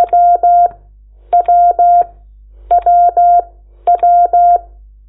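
Morse code letter W, one dot and two dashes, is played four times as a loud, steady mid-pitched tone, with short pauses between the repeats.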